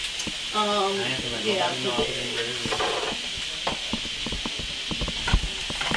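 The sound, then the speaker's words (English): Eggs sizzle as they fry in a pan, a steady hiss with scattered clicks and scrapes of a utensil stirring and breaking them up against the metal. “You want to break up some eggs in there?”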